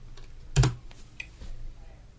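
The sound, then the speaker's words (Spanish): Typing a password on a computer keyboard while setting up a new late-2020 Apple Mac Mini with M1 chip. One louder key clack is followed by a few faint taps, all quiet. “Y ahora escribo la contraseña.”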